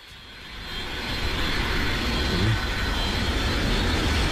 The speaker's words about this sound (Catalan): És el so d'un avió. Sent l'aire d'avió.